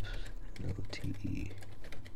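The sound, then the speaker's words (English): Computer keyboard keys pressed in quick, uneven clicks, while a synthetic voice speaks over the typing. “I'll press Windows R to go to Notepad.”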